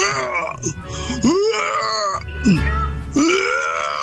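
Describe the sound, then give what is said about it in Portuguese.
Crying and wailing voices, with a few long moaning cries that swoop sharply in pitch and are loud and drawn out. “Vocês vão começar a chorar de novo, não, né? Vocês não vão começar a me chorar novamente aqui de novo,”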